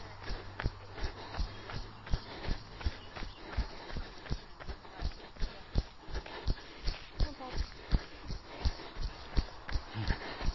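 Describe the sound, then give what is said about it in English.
Jogging footsteps during a workout warm-up, many even thuds falling in a steady running rhythm. “loosen stuff off, hamstrings, hips, get things going, and jog.”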